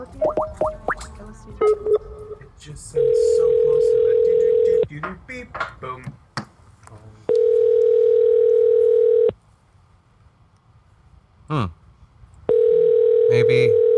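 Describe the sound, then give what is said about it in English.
Telephone line tones while dialing a number: a few short beeps and clicks at the start, then three long, steady, mid-pitched tones of about two seconds each, separated by quiet gaps with faint clicks. “Maybe I dialed the wrong number again. That happens.”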